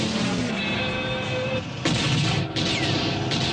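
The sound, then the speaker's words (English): Gunshots fired at a car, striking its trunk and flaking off the paint, form loud, dense booming blasts that run almost continuously, with a few sharper bursts standing out. “You had a steady shot and you shot the fucking trunk. You notice how much the paint is flaking off with each shot?”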